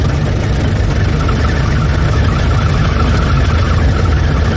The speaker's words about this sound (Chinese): 啊，我开车呢。